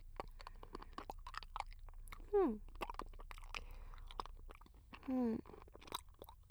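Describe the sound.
Someone chews and crunches food with many quick, soft crisp clicks and bites, broken by two short voiced hums.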